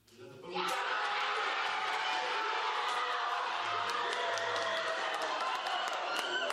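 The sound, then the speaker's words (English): Workers at the Elmwood Starbucks store in Buffalo, New York cheer as their union vote results are announced, a dense wall of cheering, clapping and voices that bursts in abruptly and stays loud and steady. “Workers cheered as the results of their vote were announced.”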